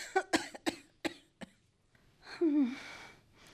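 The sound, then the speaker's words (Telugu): An elderly woman has a severe, fairly quiet coughing fit: a quick string of harsh, dry coughs, then a strained, wheezing gasp for breath. “చూడు ఆ దగ్గు ఊపిరి సలపనివ్వకుండా ఎలా వస్తుందో.”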